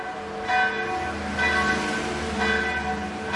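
Bells of an old Serbian Orthodox church in Sarajevo ring to call people to mass: three loud, resonant strikes about a second apart, each with rich sustained overtones that hum on between blows. No voices are heard.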